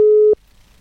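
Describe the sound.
A single steady, low-pitched tone from a phone call trying to connect sounds for about a third of a second, then cuts off into near silence.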